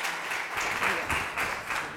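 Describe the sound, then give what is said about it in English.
An audience claps to welcome a visiting Fulbright professor before a talk on leadership, producing a full, continuous round of applause at a steady, fairly loud level. “So I'd just like you to put your hands together and welcome the distinguished Fulbright uh, Professor Jean,”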